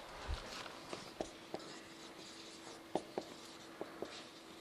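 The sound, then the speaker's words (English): Faint scratching of notes being written on an overhead projector sheet, with several light taps and strokes spread unevenly across quiet background. “So I want you, I'm just writing these down here for you to get down.”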